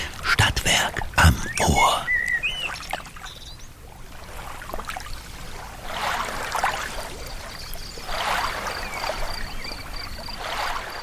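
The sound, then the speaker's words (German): Paddle strokes splashing in water beside a boat, a few sharp watery strokes at first, then a soft trickling flow under a calm voice speaking. “Wir möchten Sie gerne auf eine wohltuende Reise mitnehmen. Keine Sorge, Sie müssen nicht selbst paddeln oder stehen.”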